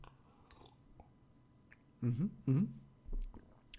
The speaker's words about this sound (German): Ja, auch an diesem Samstag habe ich uns einen Kaffee zubereitet. Wie gesagt, Milch und Zucker stehen da. Auch Süßstoff, falls du Süßstoff benötigst. Wir trinken erstmal gemeinsam einen Schluck.